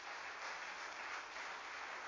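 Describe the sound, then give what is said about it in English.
Congregation applauding in a church, a steady, dense patter of clapping that stays even throughout, faint and with no talk over it. “Give him a great clap offering.”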